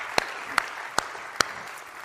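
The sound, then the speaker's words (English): Church audience applauding during a service; four sharp, evenly spaced claps stand out above a soft, steady bed of background noise. “Let's put our hands together and welcome everybody to the Bridge Church today.”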